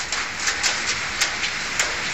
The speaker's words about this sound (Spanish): para fuertes las tormentas que descargaron ayer por la tarde en Cataluña. Sí caía en Sabadell.